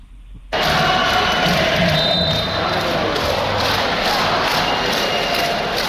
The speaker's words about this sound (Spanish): Pero también quería ahora hacer mención a los cánticos que se vivieron ayer, Javi. Vamos a escucharlo primero.